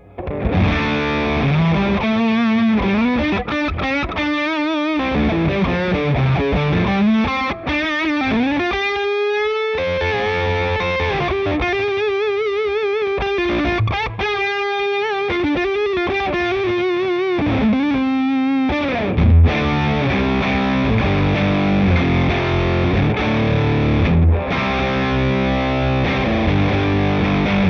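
Heavily distorted electric guitar through an overdrive pedal with its gain turned all the way up, playing sustained notes and chords with some bent notes, thick and saturated throughout.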